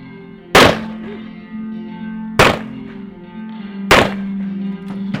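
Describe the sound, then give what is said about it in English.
Gunshots at a shooting range during a marksmanship contest with handguns and rifles: three loud, sharp cracks spaced a second or two apart over a steady low hum. “Out on the range a little later, three young men challenge each other in a marksmanship contest with an assortment of handguns and rifles.”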